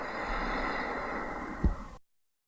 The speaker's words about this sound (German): Atme tief ein und atme tief aus.